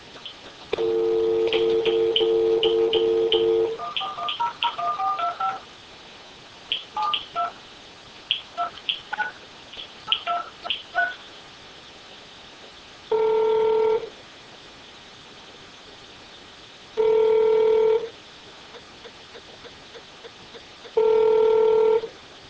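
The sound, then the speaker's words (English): Telephone keypad dialing to leave a voicemail: a steady tone first, then many quick electronic beeps in irregular bursts, followed by three longer, evenly spaced tones separated by quiet gaps. “in this part of the demonstration, I'm going to send a voicemail message to Ken”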